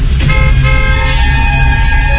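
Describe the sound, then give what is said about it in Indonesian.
A car horn honks in the rain, a loud steady harmonic blare that starts a moment in and holds unbroken to the end over a low engine rumble. “Aku mulai membunyikan klakson.”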